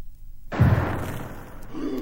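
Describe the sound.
A grenade explosion thrown at a wagon in a firefight: one sudden, loud, deep blast after a moment of silence, followed by a rumbling, noisy decay.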